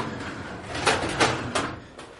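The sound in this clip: A drawer slides open with a rushing scrape and a few small knocks or clicks partway through. It lasts about two seconds, with no talking.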